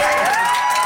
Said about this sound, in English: That is the sound of a packed Vernon City Hall after council voted to not move forward with the development project.